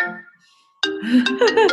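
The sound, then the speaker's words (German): A mobile phone ringtone for an incoming call that is then declined: a bright, melodic run of tones that starts abruptly after a short lull and plays at steady volume, its pitches stepping and sliding. “Ablehnen, Mann ruft an. Das kann man jetzt nicht gebrauchen hier.”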